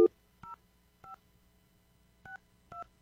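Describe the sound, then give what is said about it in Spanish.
Telephone number dialled on a keypad: four short touch-tone beeps at uneven intervals, quiet and alone, with no talk. “Estoy marcando aquí. Creo que sí marqué todos los números.”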